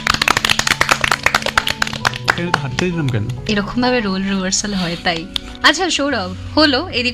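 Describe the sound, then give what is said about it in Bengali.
Loud clapping from a group at a Bengali team quiz and music show, a rapid burst of sharp claps filling the first couple of seconds before voices take over and the clapping fades under talk. “জোরে হাততালি।”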